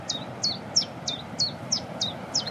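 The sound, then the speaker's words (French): Cetti's warbler singing outdoors, a rhythmic run of eight sharp, high chirps, each sliding downward in pitch, repeated at an even pace over a quiet low background hum. “Puis la bouscarde qui chante derrière nous, en plus. Ça, c'est sympa. Ça, c'est un des oiseaux les plus faciles à reconnaître au niveau chant. C'est deux notes.”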